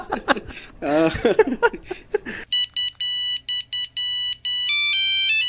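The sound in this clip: A telephone ringtone signalling an incoming call on a radio show. Brief chatter and laughter give way to a rapid series of bright electronic beeps, then a longer, higher-pitched melodic stretch that stays loud and clear.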